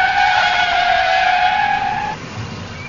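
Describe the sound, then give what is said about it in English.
Car tires squealing as the car swerves on the road, a loud, high-pitched screech held for about two seconds that cuts off abruptly, leaving a low engine rumble. “I haven't swerved like that since I first started to drive.”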